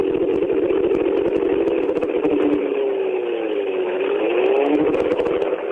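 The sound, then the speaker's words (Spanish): Race car engine running at under a quarter throttle to spin the rear tyres and warm the transmission, a sustained buzzing drone whose pitch dips and rises in slow swells. “Ahí está, menos de un cuartito de acelerador. Apenitas para que giren los neumáticos traseros, para que se vaya elevando la temperatura de todos los elementos de la transmisión.”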